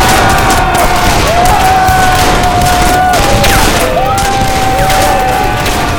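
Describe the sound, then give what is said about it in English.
Heavy gunfire erupts as two men fire together at a racing rider during an outlaw raid on a western town, a loud, unbroken barrage with steady whining tones running through it. “Matt and Sam lined up a racing rider and fired as one.”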